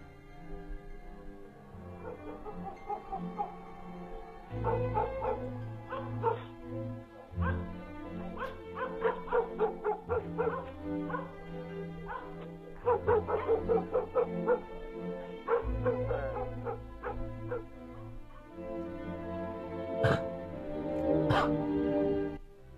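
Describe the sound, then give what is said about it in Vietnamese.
Dogs in a village bark and yip repeatedly in many sharp bursts, some clustered quickly together, over a low steady background. “Thỉnh thoảng chỉ thấy chó ở trong xóm cắn nhấm nhà nhấm nhặng.”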